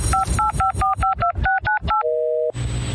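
A quick, evenly paced run of telephone keypad dialing tones, about ten short two-pitch beeps, followed by one longer steady tone, then a burst of noise.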